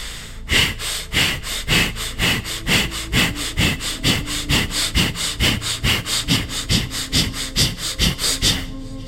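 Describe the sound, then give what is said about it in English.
Fire breath, quick forceful breathing in and out through the nose: many sharp, evenly paced nasal sniffs and exhales in a steady, rapid rhythm. “Jump over the threshold and visit with your twin self after doing this fire breath. Breathe in through your nose and out through your nose, emphatically and quickly.”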